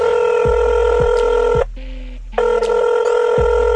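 Telephone tones from a call being dialed: a steady, layered electronic tone that breaks off briefly partway through and then resumes, with a few soft low thumps underneath.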